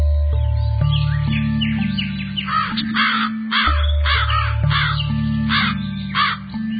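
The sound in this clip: A raven caws repeatedly in hoarse, rasping bursts, many calls in quick uneven clusters, heard over a sustained low musical backing that shifts between held notes.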